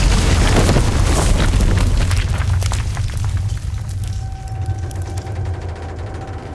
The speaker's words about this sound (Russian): Посреди двора падает бомба и разверзается ад. Взрывной волной качнуло стены. Все взлетело на воздух.